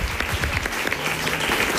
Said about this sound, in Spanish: un aplauso para mi tía Mari Carmen